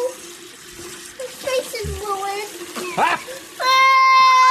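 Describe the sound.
A little girl washing off face paint: a child's voice speaks in short bursts, then water gushes loudly and steadily from a tap at the end.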